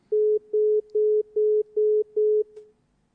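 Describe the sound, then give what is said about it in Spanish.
Busy tone after a dropped phone call: six identical mid-pitched beeps in an even on-off rhythm, each about a third of a second long, ending with a faint click and then near silence. “¿Se ha cortado, Javi? Se ha cortado, bueno, vamos a ver si podemos recuperar la llamada con Raúl”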